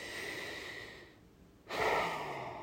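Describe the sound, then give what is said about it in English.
A long, deep breath, heard as a soft broad airy rush that dies away to near silence for a moment, then returns as a louder, fuller stream of air that slowly tapers. “So let's take another long, deep breath.”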